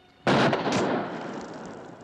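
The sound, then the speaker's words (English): A pistol shot fired at a stick thrown into a river: one sharp, loud report with an abrupt onset and a long, slowly fading tail. “She throws a stick into the river and shoots it in two.”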